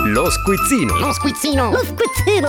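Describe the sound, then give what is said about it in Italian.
Theme jingle for the Squizzino quiz segment of Sarabanda Celebrity: a short, bright, sung melodic hook over pulsing low bass notes. “andiamo intanto con la sigla dello squizzino”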